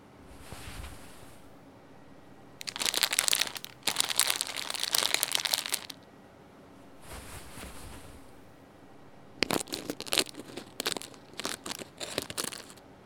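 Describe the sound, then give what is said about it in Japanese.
Crinkling plastic as a bag of baking soda is torn open, with dense crackling bursts in two main stretches separated by a quieter pause. “お次は重曹を入れます。ほれ、袋を開封。”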